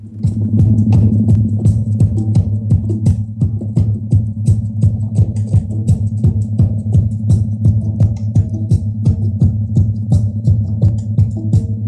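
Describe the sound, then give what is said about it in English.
Focus audio built on a rhythmic drum pulse, with congas, bongos and other hand drums far in the background, made for concentration. Many steady, deep, throbbing beats repeat quickly and evenly, with faint, crisp higher taps on top. “So what you're hearing is a kind of a pulse on a drum. It's got a bunch of hand drums that are like, you know, congas and bongos and things in very specific places in the far background.”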